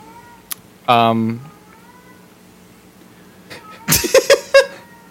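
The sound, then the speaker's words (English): A cat meowing: one loud, drawn-out meow with a clear, tonal quality, followed by a quiet stretch and then a short burst of other sounds near the end. “What is that? That's my cat.”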